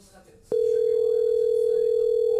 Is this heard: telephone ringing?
yes

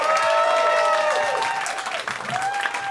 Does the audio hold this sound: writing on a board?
no

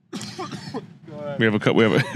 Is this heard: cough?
yes

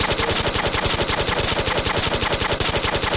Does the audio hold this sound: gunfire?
yes

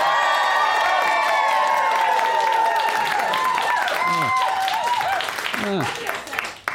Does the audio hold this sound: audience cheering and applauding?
yes

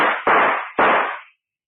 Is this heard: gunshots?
yes

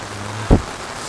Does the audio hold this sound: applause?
no

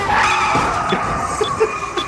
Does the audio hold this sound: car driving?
yes

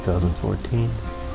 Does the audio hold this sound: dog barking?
no

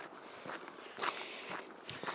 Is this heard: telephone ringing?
no

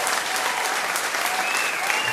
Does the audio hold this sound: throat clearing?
no

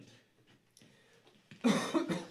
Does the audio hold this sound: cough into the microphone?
yes

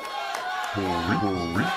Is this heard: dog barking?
no

